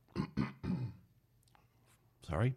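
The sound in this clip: Someone clearing their throat: three quick, rough, guttural bursts, then a pause and one louder, longer rasp at the end.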